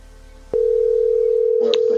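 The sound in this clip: A telephone tone sounds on an outgoing call: after a faint hiss, a single steady, pitched tone starts and holds unbroken to the end, with a brief burst of noise near the finish.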